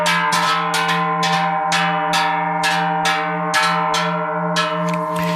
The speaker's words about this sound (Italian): Questo dunque era il suono di un campanaccio prodotto dalla fonderia di Alexis